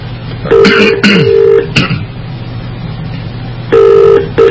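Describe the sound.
Electronic connecting tones of a Skype call on a computer: a few short chiming beeps, then a longer held tone, and another tone near the end, all over a steady low hum.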